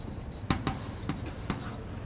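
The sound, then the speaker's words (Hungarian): During a mathematics lecture, a pen or chalk writes on a board, making faint scratches and a few short, sharp taps as strokes are made. “Tehát ide írom, hogy Bessel vagy numerikus.”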